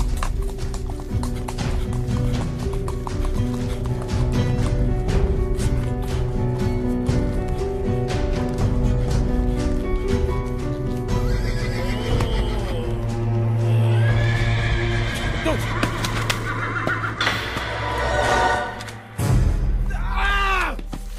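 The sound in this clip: Horse galloping hard with rapid, continuous clip-clop hoofbeats and several loud whinnies, ridden at evening near Tlacolulan in Mexico; the hoofbeats stay dense throughout, with a brief dip near the end before the sound returns.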